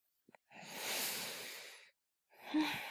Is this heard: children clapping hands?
no